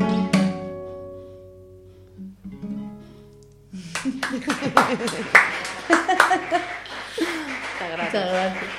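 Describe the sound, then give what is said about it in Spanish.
Audience ovation at a live radio event: a fading musical tone gives way to dense, loud clapping with voices and laughter mixed in, building and holding steady to the end. “La ovación continúa.”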